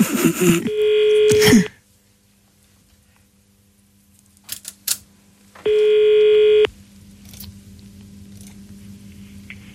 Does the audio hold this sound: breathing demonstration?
no